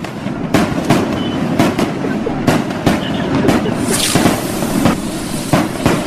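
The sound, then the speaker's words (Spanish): Firecrackers set off by two men from Tultepec: many sharp, loud cracks and bangs in irregular succession over a constant crackling, rumbling background. “Traje dos señores de Tultepec a tronar cohetes.”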